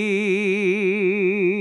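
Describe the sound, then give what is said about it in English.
A single sustained sung vowel with fast vibrato, about six wobbles per second; the pitch pulses evenly around a steady note, loud and alone. “Whereas vibrato, which is actually been clocked at 6 oscillations per second, check this out. That means that if it was a wave, it would go up and down and up and down and up and down 6 times in a second.”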